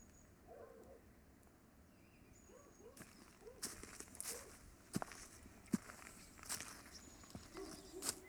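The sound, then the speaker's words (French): Footsteps on a stony mountain path: faint scuffing and crunching that grows busier partway through, with many irregular sharp clicks of stones shifting underfoot. “les chemins pour grimper sont pleins de pierres. Quand ils marchent dessus, ça donne cette musique spéciale.”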